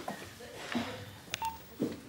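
Telephone dialing tones ring out as a few short, distinct beeps over a faint, low background murmur, each tone brief and separated by short pauses.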